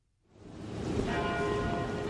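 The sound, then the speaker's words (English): University tower bells in Austin, Texas toll after a brief silence, swelling into a dense, sustained ringing wash with steady metallic tones that keep sounding throughout. “Those are the tower bells of the University of Texas in Austin, and these days the bells toll for the Texas Tomorrow Fund.”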